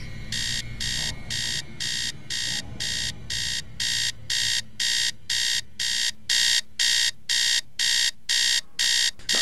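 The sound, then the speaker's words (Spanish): An alarm clock rings in the middle of the night in an old house, sounding many evenly spaced, high buzzing beeps in a steady rhythm over a low background hum. “Maldito despertador, pero si apenas son las 4:15 de la mañana.”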